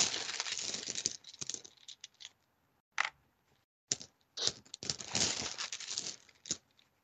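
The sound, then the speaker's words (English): A handful of six-sided dice rolled into a dice tray, fairly faint bursts of hard clicking and rattling clatter separated by short silences. “Roll me 11 ones. Oh, I'm hopefully not going to do that. 8, 9. I'm just wondering how many D6s I have in here. 10.”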